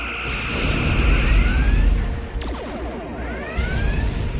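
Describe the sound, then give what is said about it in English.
A starship fires all its weapon batteries in a loud, continuous rumbling roar laced with sweeping, zapping tones, with a sharp burst near the middle and another toward the end. “Schmitty, turn our ship around and show the buggers we still have teeth. Firing all batteries!”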